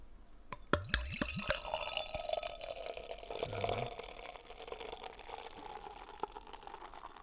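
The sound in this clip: Beer is poured into a glass after dessert, a steady fizzing and bubbling with a few brief gurgling glugs near the start and again midway, continuing as a soft foamy hiss.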